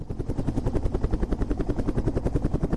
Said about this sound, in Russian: Воздух дрожит. Над крышей зависает вертолет, разгоняя лопастями остатки тумана.